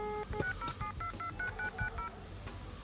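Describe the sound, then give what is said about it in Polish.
Telephone tone dialing from the redial key: a rapid run of many short DTMF beeps fired off in quick, even succession, each a brief two-tone blip with tiny gaps between. No talking accompanies the beeps. “A jak telefon dzwoni z klawisza redial,”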